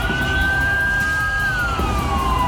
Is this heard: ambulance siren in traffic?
yes